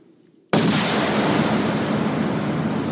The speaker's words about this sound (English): it is a very pronounced gunshot sound.